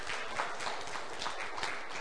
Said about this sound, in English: And I think if this morning you would do one thing, just give them a little applause.